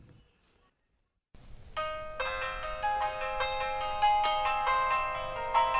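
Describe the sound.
A phone rings with a faint melodic electronic ringtone. A sequence of bright tones enters after a short silence and repeats in a steady pattern, with no speech.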